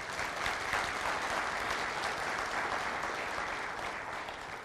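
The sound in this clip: Audience applause welcoming first-time attendees at a gathering: dense, even clapping from many hands that continues steadily for nearly five seconds at a fairly soft level.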